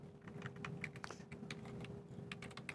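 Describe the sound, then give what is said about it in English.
Quick keyboard typing as a word is entered into a shape in diagramming software: many rapid, light keystroke clicks in an uneven run, over a faint steady hum. “So I'm just going to click on the shape and type restocking”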